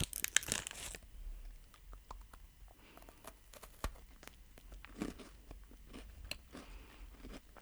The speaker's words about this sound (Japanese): すごい可愛いイラストがついたお菓子であの私ピスタチオ大好きなのでちょっと今、一つ食べてみますね。いただきまーす。